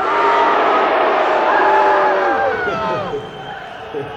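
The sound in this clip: Audience cheering and booing at a political figure's name, a loud mix of shouts, yays and jeers that holds strong, then thins out and fades toward the end.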